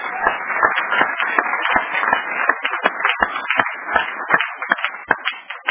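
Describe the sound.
Audience applause during a French-language sermon: a dense, steady patter of many hands clapping at moderate loudness throughout, with no talk over it.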